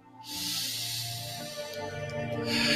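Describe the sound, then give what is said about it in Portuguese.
A deep inhalation during a guided breathing exercise, one long, steady airy hiss of drawn breath that swells quickly and holds for over two seconds, strengthening slightly near the end. “Inspira novamente aquilo que te completa. Inspira.”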